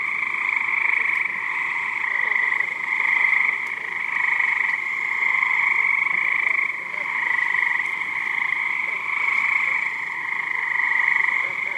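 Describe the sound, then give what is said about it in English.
Small, dark green cricket frogs from New Jersey call in a steady, dense chorus of high, rapid trilling clicks that carries on without pause for the whole stretch, with no voices. “That was the sound of... frogs. The frogs are from New Jersey, and they are cricket frogs. They are small, dark green in color. They sound that way because they are calling out to female frogs.”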